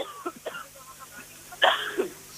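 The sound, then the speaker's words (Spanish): A single short, faint cough stands out briefly against quiet background noise. Nothing else happens around it. “ha dado un golpito de tos”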